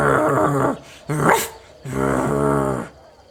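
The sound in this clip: An old dog growls outside a shop, sounding agitated: three throaty, harmonic growls, the first and last long and steady, a short sharper one between them.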